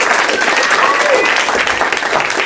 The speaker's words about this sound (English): Doug Loves Movies is coming to you from the UCB Theater in Los Angeles in front of a live audience! That's them.